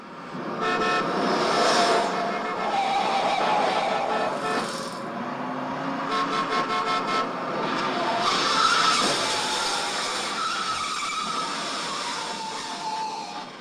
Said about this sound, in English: Even the sound is harsh and kind of bombarding, that constant honking of the horn.